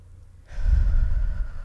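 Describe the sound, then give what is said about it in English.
A single deep breath, drawn in and let out during a relaxation exercise. After half a second of silence it starts as a steady, low, airy rush of air that stays fairly loud and even to the end, with no talk over it. “Deep breath in and deep breath out.”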